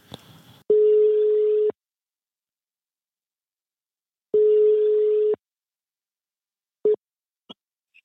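A telephone ringing tone sounds while a call is placed: two long, steady, mid-pitched tone bursts of about a second each, separated by a long silence, then a few brief faint clicks at the end.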